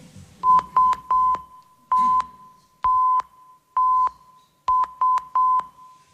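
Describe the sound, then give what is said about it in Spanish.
A Morse code SOS distress signal beeps out as nine steady, clear, mid-pitched tones in three groups: three short, three longer, then three short again, with clean gaps between them and no voices. “Muy popular se ha hecho desde luego la llamada de SOS.”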